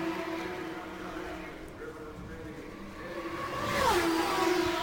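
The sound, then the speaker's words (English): A race car engine drones as the leading car comes off turn four and completes a lap at the Indianapolis 500. A commentator speaks over it, and near the end a passing engine rises in loudness with a clearly falling pitch. “it is Roberto Guerrero that continues to circulate the track and lead the Indianapolis 500. He comes off of turn four, completes another lap, and Davey Jones stays out.”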